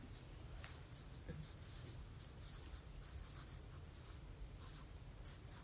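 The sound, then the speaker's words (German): Handwriting on paper, with many faint, quick scratching strokes of a pen in an uneven rhythm against a soft, steady background hiss. “Zerbruch. Schreibe ich rein.”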